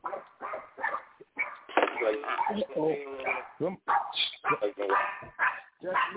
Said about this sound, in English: Is that your dog? Was somebody pet bull going off? Who dog? Mine over here acting crazy.